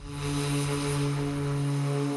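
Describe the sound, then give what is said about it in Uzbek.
Propeller drone of a Douglas DC-3 airplane built in 1942 and used in the war: a steady, loud engine hum with strong sustained low tones and a hissy wash above, holding level throughout. “DC-3 deb nomlangan mana bu samolyot 1942-yilda qurilgan va urushda ishlatilgan.”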